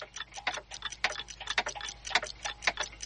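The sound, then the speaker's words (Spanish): Dozens of clocks tick together on the walls and shelves of a room, forming a dense, overlapping patter of crisp ticks and tocks that never settles into a single beat, with no voices. “De día, en una habitación, docenas de relojes están colocados sobre paredes y estantes.”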